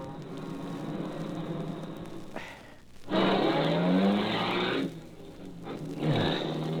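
A car turns around at a dead end, engine revving hard and tires squealing. Loud surges of engine noise break off into a brief lull, then a second roaring burst follows with a falling whine.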